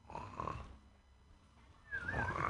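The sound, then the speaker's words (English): A voice imitates the snoring of someone drifting off to sleep: a faint, low rasping snort, a short pause, then a second breath carrying a thin whistling tone, quiet throughout. “Somebody just about to go off to sleep. You hear that?”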